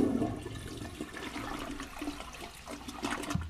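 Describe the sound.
A toilet flush, water rushing down the drain as a faint, steady gurgling roar that swells slightly near the end, with no talking.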